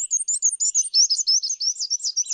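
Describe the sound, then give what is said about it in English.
A black-and-white warbler sings a rapid series of many thin, high-pitched squeaky notes, evenly repeated in a steady rhythm for just over two seconds. “Sometimes birds have common names that aren't very descriptive. Not so for the black and white warbler.”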